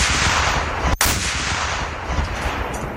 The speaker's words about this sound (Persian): این صدای مین ضد نفر بود، صدایی که بی صداها را بی صداتر می کند